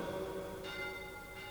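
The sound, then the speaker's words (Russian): Faint church bells ringing, sustained metallic tones with two fresh strikes standing out, and no voices. “Да, мы не ошиблись. Это колокола Наина”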